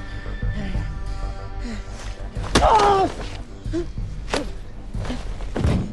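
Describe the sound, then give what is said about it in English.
A man is shoved against a door: a heavy dull thud, followed by a couple of sharper knocks and thumps over a steady low background. “He pushes the man in the cap against a door.”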